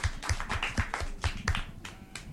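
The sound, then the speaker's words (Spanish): Faint applause for children at a school event: many quick, separate hand claps in a loose, fairly regular rhythm. “Un aplauso para ellos.”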